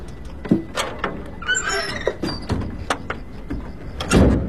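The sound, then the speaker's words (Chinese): A door closing with several sharp clicks and knocks, plus a squeal partway through. “门咋关上了呢？”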